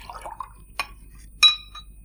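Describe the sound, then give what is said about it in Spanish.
A drink is poured into a glass, a short liquid trickle followed by two crisp glassy clinks, the second ringing briefly; the sounds are soft and isolated, with no voices. “¿Puede servirme otra copa?”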